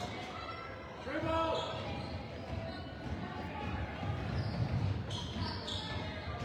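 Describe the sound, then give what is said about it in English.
A basketball is dribbled on the court during a game, its bounces fairly faint within a constant crowd murmur, with a voice calling out briefly. “Dribble.”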